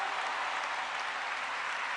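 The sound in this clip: Dense, even applause from a church audience, a steady wash of many hands clapping that holds the same moderate level throughout, with no voices rising above it.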